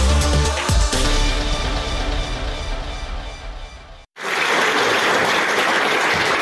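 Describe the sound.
Full-house applause after a performance of a play at the Ilhom theatre, a dense, loud wash of clapping that begins abruptly after a short gap and continues steadily to the end.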